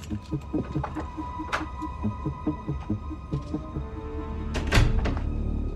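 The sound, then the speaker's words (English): A door being unlocked and opened is heard as a single solid thunk near the end, after soft, rhythmic low thumping over a faint, steady hum. “She unlocks a door and enters it.”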